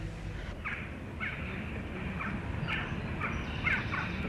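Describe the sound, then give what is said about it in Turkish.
Crows cawing and fighting: a run of harsh, rasping caws repeats in quick bursts over a steady low rumble, with no talk. “Ne istiyor bu kargalar? Kavga ediyorlar.”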